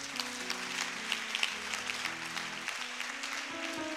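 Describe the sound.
Congregation at a late-night worship service applauding and acclaiming God, steady dense clapping over low sustained music tones, with no clear talk.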